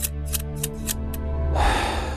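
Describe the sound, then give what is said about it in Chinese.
Scissors snip several times, a few crisp, light cuts in a row, followed by a louder, broad rushing swish. “我告诉你，我手里的剪刀可是没有长眼，从你开始我一个个要回去。”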